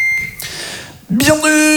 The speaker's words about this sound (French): Après le signal sonore, enregistrez l'annonce d'accueil de votre boîte vocale.